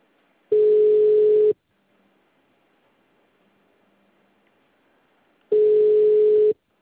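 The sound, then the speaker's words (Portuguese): Telephone tone while placing a call: two long, steady mid-pitched beeps, each about a second, separated by several seconds of near silence. “Eu vou ligar para ele.”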